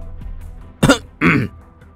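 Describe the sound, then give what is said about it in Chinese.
A man's throat-clearing cough before he reads a loan note aloud, two short, rough bursts in quick succession against a quiet background. “咳嗽了一声”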